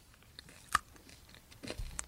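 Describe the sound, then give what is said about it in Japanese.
A single crisp crunching bite into a banana-flavoured chocolate is followed by soft chewing, all quiet and with no talk. “ちょっと食べていきたいと思います。うん。なんか、本当に、あ、バナナだ。バナナ味です。美味しい。”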